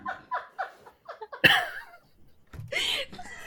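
A snort bursts out during a run of short, rhythmic laughs, followed by more breathy laughter. The whole sequence is quiet and brief.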